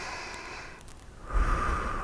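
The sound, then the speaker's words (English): A single deep breath taken to relax: a soft, airy rush of air that swells about halfway through and then holds steady until the end, with no talk. “Let's take a deep breath to relax.”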